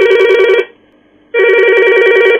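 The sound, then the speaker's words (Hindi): A telephone rings with an incoming call: two loud, bright trilling rings separated by a short silent gap. “आज के phone in चाहत कार्यक्रम का, और देखते हैं कि आज हमें सबसे पहले किस श्रोता साथी ने फोन किया है।”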